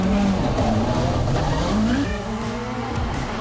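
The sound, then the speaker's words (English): A race car skids after braking too late, tires squealing over a loud, continuous engine roar; a high tone climbs briefly past the midpoint, then the sound settles a little quieter. “Oh no, he's outbraked himself! That's a massive impact!”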